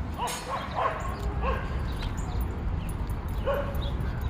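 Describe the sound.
Dogs barking and yipping while they play in Riverside Park, New York: several short, sharp barks and higher yips come in scattered bursts, some close together, over a steady background hiss.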